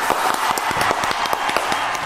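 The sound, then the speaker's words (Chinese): An audience applauds to welcome a guest onto a stage, a dense wash of many hands clapping at an even, sustained level throughout. “好，我们掌声有请胡经理上场。”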